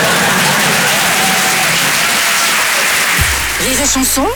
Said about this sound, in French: Non, n'applaudis pas.